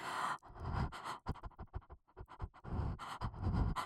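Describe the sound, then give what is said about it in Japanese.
Heavy panting breathing, many loud, rapid breaths in an uneven rhythm with brief pauses between bursts and no talk. “呼吸が荒くなってくる。”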